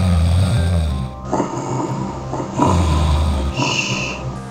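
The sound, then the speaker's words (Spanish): Loud snoring of a wolf sleeping after a big meal: deep, rumbling snores in a slow rhythm of a few breaths, each rough inhale rising and easing off again. “Estaba tan satisfecho que pronto se quedó dormido y empezó a roncar ruidosamente.”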